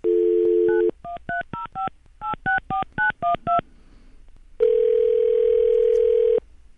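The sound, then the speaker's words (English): Touch-tone telephone dialing for a long-distance call across the country: a brief steady dial tone, then many quick two-pitch key tones in grouped bursts, followed by one long steady tone, with no voices. “We're going to call across country to our reporter in our Miami bureau, Philip Davis”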